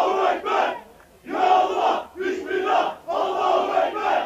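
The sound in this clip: Thousands of supporters welcoming Erdogan at Atatürk Airport in Istanbul, chanting in loud, rhythmic bursts, a few surging shouted phrases separated by brief pauses, with the massed voices rising and falling together.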